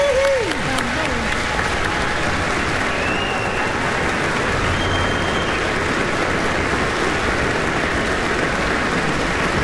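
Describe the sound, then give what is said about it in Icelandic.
Audience applause for the conductor and an Icelandic symphony orchestra: dense, steady clapping that stays loud for the whole clip. “Við skulum gefa hljómsveitarstjóranum okkar og Sinfóníu hljómsveit Íslands sérstaklega gott klapp.”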